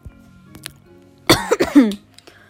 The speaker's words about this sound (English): I just coughed into the camera.